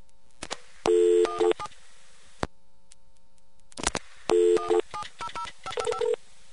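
Touch-tone DTMF beeps dialing a 700 number on a telephone line. The clear electronic tones come in short rapid clusters, separated by sharp clicks and brief silent pauses.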